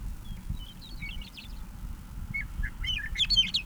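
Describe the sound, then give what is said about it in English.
Birds chirp and twitter in short, high song phrases in the background, sparse at first and busier near the end, over a steady low rumbling noise. “Bird three is audible in the background.”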